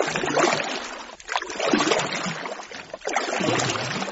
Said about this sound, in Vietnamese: Rồi ra sức chống xuồng đi ồ ồ.